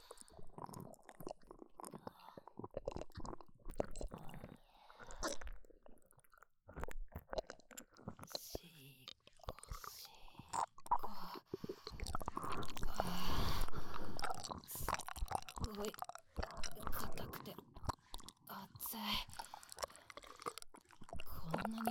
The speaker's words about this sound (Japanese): ではマッサージしやすいように唾液垂らさせていただきますね。